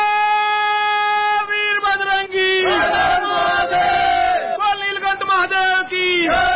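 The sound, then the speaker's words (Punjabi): Devotees chant Shiv Bhole slogans in a temple: loud massed voices ring out together in sustained, rhythmic bursts that swell and fade throughout. “ਮੰਦਰਾਂ ਵਿਚ ਸ਼ਿਵ ਭੋਲੇ ਦੀ ਮਹਿਮਾ ਦਾ ਗੁਣਗਾਨ ਲਗਾਤਾਰ ਚੱਲ ਰਿਹਾ ਹੈ ਅਤੇ ਮੰਦਰ ਸ਼ਿਵ ਭੋਲੇ ਦੇ ਜੈਕਾਰਿਆਂ ਨਾਲ ਗੂੰਜ ਰਹੇ ਨੇ”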